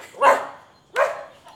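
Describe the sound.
A small dog barks twice, each bark sharp and fairly loud and followed by a brief pause, with a faint trailing yelp at the end.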